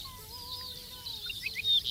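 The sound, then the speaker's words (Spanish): Faint song of a lark in the páramo: thin, whistled notes, with a long sustained tone over a lower parallel line, then brief high chirps near the end above a soft low rumble. “ricotí, se llama como tal porque es una emulación de la onomatopeya que produce, uh-huh, en el canto, el titutí. Sé que realiza en varios momentos. Pues, profesor Juan. Ah, mira, está a ver. Está cantando.”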